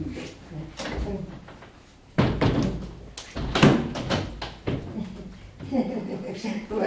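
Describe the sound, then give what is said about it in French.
A window is pushed shut with a solid thump while people talk around it. “Oui, je vais fermer la fenêtre.”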